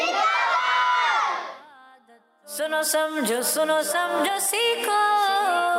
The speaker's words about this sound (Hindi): आपने हमें दुआ में याद रखना है, नारा लगाना है दावत इस्लामी।